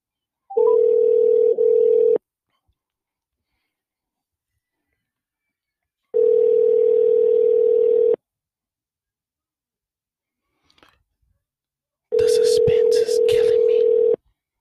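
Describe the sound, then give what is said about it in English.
An outgoing phone call rings unanswered: three steady ringback tones of about two seconds each, separated by roughly four seconds of silence. A brief click comes just before the last ring, which carries some extra noise. “We just dial in the number. Let's go. See if they answer.”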